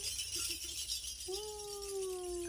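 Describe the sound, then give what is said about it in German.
Coins jingle as they are shaken like pirate treasure, producing a bright metallic rattle and clink at a quiet level, with several shakes in the opening second. “Goldilocks hat den Piratenschatz gefunden. Klimperkohle. Klimperkohle. Sehr schön, wie du langsam ausprobiert hast, wie laut das ist”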